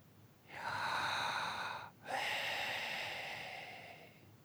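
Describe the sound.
A person takes one slow, audible breath in, pauses briefly, then lets out a long, airy exhale that fades gradually. The breathing is heard alone and is fairly soft.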